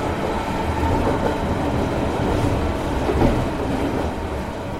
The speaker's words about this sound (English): I step up into the royal blue 1920s Pullman carriage, and in an instant, I'm aboard the most opulent locomotive in the Americas.